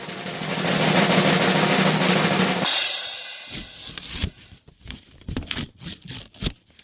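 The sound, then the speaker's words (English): Paper envelope handed over and torn open at an awards announcement: a sustained, rough rustling tear gives way to several short, sharp crinkling crackles of paper. “The envelope, please. The envelope, please. All right. I'm being handed the envelope.”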